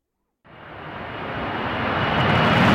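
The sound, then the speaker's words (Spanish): An airplane taking off: after silence, a broad jet-engine roar starts abruptly and grows steadily louder and fuller through the end. “Despegamos.”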